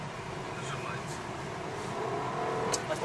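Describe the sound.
A four-cylinder car accelerates at full throttle on a test drive. A broad, steady engine roar swells slightly toward the end as people talk over it.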